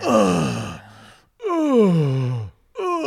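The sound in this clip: A man imitates an old man groaning while urinating. He makes three drawn-out vocal groans; the middle one slides down in pitch, and the last is cut short.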